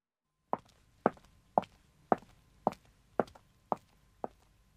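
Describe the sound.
Footsteps of a person walking away, an even, steady series of hollow thuds about half a second apart, clear against an otherwise quiet background with no talking.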